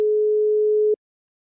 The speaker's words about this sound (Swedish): Jag slår in numret.